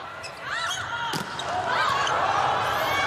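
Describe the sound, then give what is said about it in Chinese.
Turkey serves to open a women's volleyball match against China. The ball is struck once with a sharp slap amid steady crowd noise, and a commentator talks throughout. “中国队位于画面左侧，本场比赛将由土耳其队来率先发球。副攻手居内实，好，全场比赛开始”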